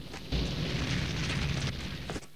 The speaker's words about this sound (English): Alex throws a pail of water onto the roaring flames, and he and Jack try to control the fire by flapping blankets at it.